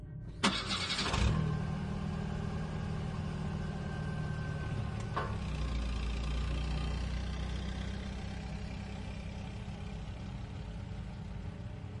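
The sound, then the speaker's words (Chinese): At night, a car engine cranks and catches with a brief burst, then settles into a steady, low running hum that continues to the end. “在确认贝蒂死后，黑衣人发动自己的车，从容的消失在夜幕里。”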